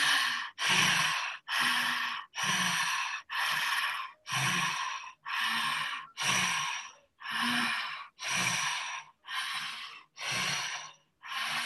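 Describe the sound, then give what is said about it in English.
Rhythmic breathing in and out at a steady two-count pace, with many loud, airy breaths separated evenly by short pauses and no talking. “going back to your two count breath, one, two in, one, two out.”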